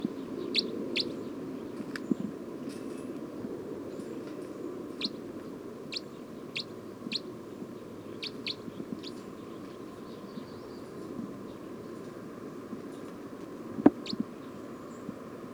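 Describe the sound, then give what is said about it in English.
Bird calls recorded in the field: short, high chirps repeat at irregular intervals, sometimes in pairs, over a low steady background rumble. One sharper click stands out near the end. “Recording bird 306 again.”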